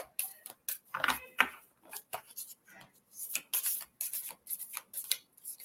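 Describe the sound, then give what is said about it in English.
Cards pulled from a deck make a quiet, irregular run of many small snaps, clicks and papery rustles, with short pauses and no talk. “We're going to pull a couple of cards for you.”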